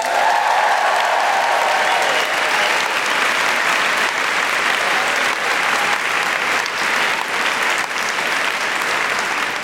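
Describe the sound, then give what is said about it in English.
Audience applause and cheering greet a guest introduced on stage, a dense and steady roar of clapping with scattered whoops that holds at full strength for the whole stretch. “Please put your hands together and make extraordinary woohooing noises for Jamila Rivesney.”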